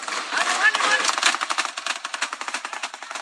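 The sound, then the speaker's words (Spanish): Heavy-calibre gunfire rings out during an armed clash in Michoacán, Mexico, near Tinguindín: many sharp, evenly spaced reports in fast succession, growing into a steady rapid rhythm of bursts. “En la zona huacatera de Michoacán, cerca de Tinguindín, se reportó un enfrentamiento con armas de muy grueso calibre, como lo permite apreciar el sonido de las detonaciones.”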